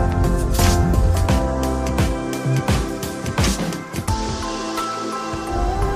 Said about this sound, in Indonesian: Kemudian kita aduk-aduk.